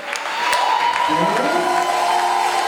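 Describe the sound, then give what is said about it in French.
A worship audience cheers and applauds, with a dense, steady wash of clapping and scattered whoops that swells slightly in the first half-second and then holds loud and even to the end. “qu'on peut l'acclamer Est-ce qu'on peut l'acclamer”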